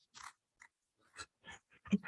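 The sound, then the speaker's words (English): A soft brown Stem Player case is opened in short crisp crackles and clicks separated by silences. The sounds are faint and intermittent, with a slightly stronger snap near the end. “We're giving them ASMR stem player opening. Just ASMR stem player.”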